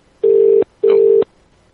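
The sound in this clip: Two loud bursts of a low, steady ringback tone sound on an outgoing telephone call placed to a misdialed number. Each burst lasts under half a second, with a brief silence between and after them.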